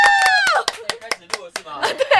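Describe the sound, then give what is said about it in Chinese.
Scattered hand claps welcoming a guest, a few sharp slaps at irregular intervals mixed with people speaking and exclaiming over them. “掌声欢迎我们的来宾！”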